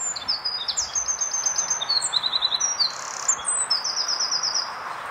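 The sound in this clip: Wren song played back from an internet recording: rapid, high-pitched trills and sharp chirps in several quick bursts over a steady hiss.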